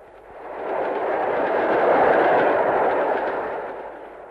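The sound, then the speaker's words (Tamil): A train approaches with a broad, roaring rumble that swells steadily to a peak around the middle, then gradually eases back down, a dense wash of noise with no distinct clicks or voices. “Train கிட்ட வந்துருச்சு.”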